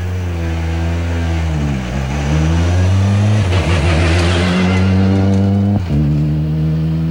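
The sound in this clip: A rally car engine revs loudly at a stage-start time control, then engages gear and accelerates away, its pitch climbing steadily with a brief break at a gear change before rising again.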